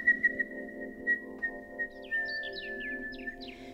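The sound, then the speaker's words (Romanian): Swallows chirping in a children's story: a few quick, high, whistle-like chirps flutter in over the second half above a sustained tone and soft low musical backing, all fairly faint. “Rântunele mititele, arătați-vă în zbor să ne fiți de ajutor. Ah, nașa, ce de păsărele!”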